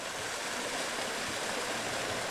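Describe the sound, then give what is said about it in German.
Flowing water of the Erft, a Rhine tributary, at a river baptism site: a steady, even rush of moving water, with no voices. “Alle sind froh, aus der Erft rauszukommen. Die ist übrigens ein Nebenfluss des Rheins.”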